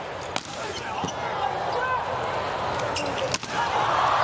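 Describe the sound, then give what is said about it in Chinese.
At a volleyball match between the United States and Japan, a couple of sharp ball strikes ring out around a substitute's serve, set against a constant wash of crowd noise and voices. “马上来替补发球，”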